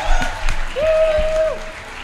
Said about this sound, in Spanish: ¡Un aplauso como las estrellas del rock! ¡Aparición triunfal!